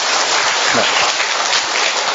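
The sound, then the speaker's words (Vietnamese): Applause from a church audience, a loud, dense, continuous wash of clapping hands holding a steady level throughout. “một tràng pháo tay thật lớn thưa anh chị em”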